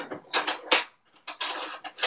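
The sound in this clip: Spoon and cutlery clinking: quick, bright metallic clatters in two bursts split by a short pause, fairly faint and with no talk.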